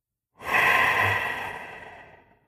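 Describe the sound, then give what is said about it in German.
A single soft breath during alternate-nostril breathing (Nadi Shodhana), drawn in through one nostril and out through the other. It is a smooth airy exhale that rises quickly and fades gently over about two seconds. “Nadi-Shodhana ist Sanskrit und bedeutet Wechselatmung. Also, man atmet mit einem Nasenloch ein und mit dem anderen aus.”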